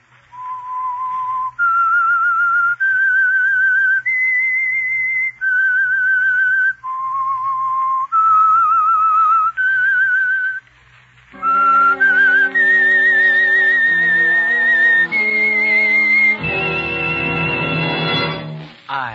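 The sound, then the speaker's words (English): A solo whistled theme tune for a mystery drama, clear and loud, moving through short phrases of sustained notes separated by brief pauses, before an orchestra swells in beneath the whistling for the closing phrases. “That whistle is your signal for the Signal Oil Program, The Whistler.”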